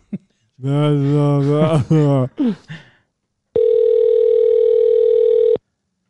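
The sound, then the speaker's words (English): A steady telephone dial tone sounds while placing a call: one unbroken, even-pitched electronic tone holds for about two seconds after a short burst of people talking, then cuts off cleanly. “Ooh, can we leave him a bunch of voicemails? Yeah, let's call him.”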